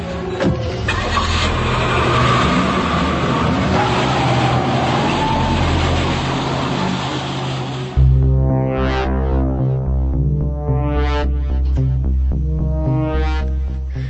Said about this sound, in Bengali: driver, গাড়ি বের কর, কুইক, বড্ড দেরি হয়ে গেছে, আমাদের এক্ষুনি বেরোতে হবে